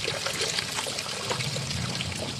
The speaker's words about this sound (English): She's filling buckets with a watering hose.